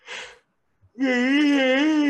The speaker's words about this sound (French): Je vais laisser le bâillement sortir.